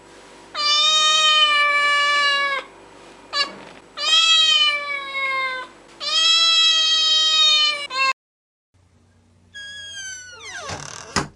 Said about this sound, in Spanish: lo primero que escucho es mi gata pidiéndome comida